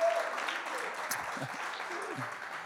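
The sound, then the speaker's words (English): A church audience at the Nampa Civic Center applauds its online viewers with steady, dense clapping throughout and a voice faintly beneath it. “Come on, we love our online church family. Come on, throw your hands together, let them know how much you love them.”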